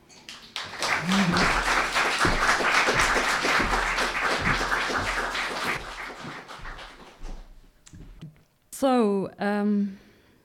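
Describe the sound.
Audience applause welcoming a guest speaker at an event in Oslo: a thick burst of clapping lasting several seconds that tapers off, followed by a voice speaking briefly.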